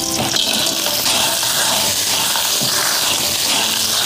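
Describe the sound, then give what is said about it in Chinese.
Clams with scallion and ginger slices sizzling in hot oil in a wok, a loud, steady hiss with faint irregular crackle throughout and no talk. “油热了，倒入葱姜片儿爆香，然后倒入蛤蜊，”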